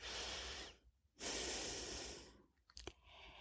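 Slow, deep breathing during a seated meditation exercise, with long airy breaths separated by short pauses and a brief snort-like catch near the end. No talk.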